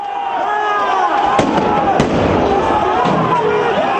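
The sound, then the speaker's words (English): Sharp bangs of police stun grenades fired at an anti-government street protest in Kiev, a few sudden bursts cutting through dense, continuous crowd noise and shouting. “Here's sound from Kiev, the Ukrainian capital, earlier this week. Anti-government protesters tried to chase police officers who responded with stun grenades and tear gas.”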